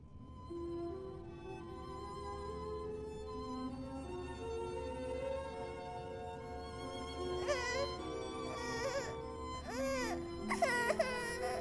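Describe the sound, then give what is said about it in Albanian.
A small child crying in an animated film, starting with soft whimpers over a low steady background, then breaking into several loud wailing bursts with rising and falling pitch toward the end. “Jo, mos qaj. Mos u frikëso.”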